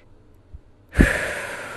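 A single slow, deep breath is drawn in abruptly after near silence, then trails off gradually as a soft, airy rush heard on its own.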